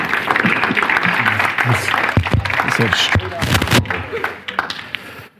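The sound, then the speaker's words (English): Church audience applauding a pastor, loud, busy clapping mixed with shouts and voices throughout, then tapering off near the end. “Why don't you stand on your feet and just give Pastor Cello Lozano a round of applause.”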